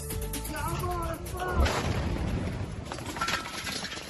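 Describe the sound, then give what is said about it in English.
An Israeli airstrike hits a house in a Gaza City suburb, setting off a single heavy explosion. A deep, booming blast and a rumbling aftermath follow a stretch of raised voices. “A blast could be heard the moment Israeli airstrike hit a house in a Gaza City suburb Sunday.”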